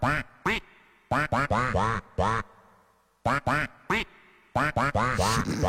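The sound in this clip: A man's voice imitates a cartoon duck's raspy, sputtering quack, delivered as many short, loud bursts grouped in uneven clusters with brief silences between.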